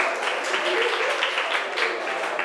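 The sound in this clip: Classroom applause from pupils for a group of classmates, a brisk, dense clatter of many small hands clapping steadily at moderate loudness.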